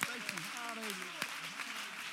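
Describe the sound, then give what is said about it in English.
Congregation clapping hands during a church sermon, a brief burst of many hands with a few sharper claps standing out, heard beneath a voice and sustained tones. “Oh, clap your hands, all ye people.”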